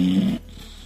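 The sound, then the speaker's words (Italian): A sleeping person snoring: one rough, droning breath with a low buzzing tone that lasts under half a second, then drops away into quiet background noise. “e senti come russa”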